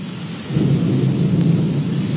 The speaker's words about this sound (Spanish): Paisano, está buena la lluvia. Está buena la lluvia, paisano, está recio. La lluvia. mucho viento.